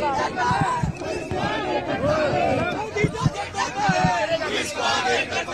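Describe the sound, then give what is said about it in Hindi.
At a political protest around a halted bus, a crowd chants slogans and claps along. Loud, overlapping voices carry throughout, with irregular sharp claps mixed into the chanting. “और प्रियंका गांधी लगातार नारेबाजी में साथ साथ ताली पीटते हुए यहाँ पे”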